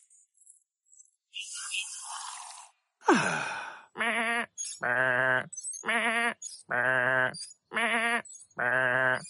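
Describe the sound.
Sheep bleating: six wavering, nasal bleats in a fairly even rhythm, fairly quiet, preceded by a few breathy rustling and sighing noises.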